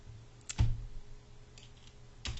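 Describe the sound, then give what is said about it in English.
Keys click on a computer keyboard as code is typed, a few sparse taps with one louder strike, over a faint steady hum. “So we're going to type the word var, okay, which means this is a variable.”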